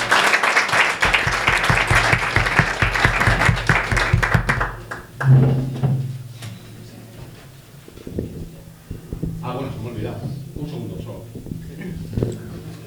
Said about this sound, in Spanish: Un fuerte aplauso.